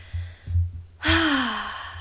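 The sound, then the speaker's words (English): A deep breath taken as a calm start, heard as one breathy, voiced exhale whose pitch slides gently downward, over a low steady hum and a few soft thumps. “And just taking a nice deep breath to begin.”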